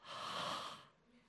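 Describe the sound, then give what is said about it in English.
A voice imitates Jesus breathing on his disciples with a long, breathy exhale, loud and steady, which stops abruptly and leaves near silence. “He said, Jesus breathed on them and said to them, I mean, I'm not quite sure what John's referring to, because, you know, did Jesus go up to them and go,”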